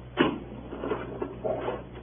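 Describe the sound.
A toolkit being opened, with a sharp clunk followed by a few softer knocks and rattles of the case.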